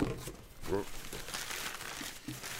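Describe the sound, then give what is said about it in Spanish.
Crinkling of a long strip of packing paper being chewed, a continuous dense crackle and rustle with a voice audible beneath it. “Está, comiendo papel. Ahí está, ahí con todo el papel en la boca, sí. esa tira de papel alargada que a veces meten en los paquetes, que es como que no se acaba nunca.”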